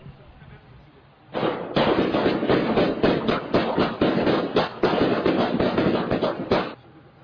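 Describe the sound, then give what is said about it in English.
Many sharp bangs from a shooting in Rosamond, captured by a security camera, fire in a loud, dense, rapid volley that lasts several seconds before stopping. “This is video that we obtained from a security camera nearby. This is the shooting here in Rosamond.”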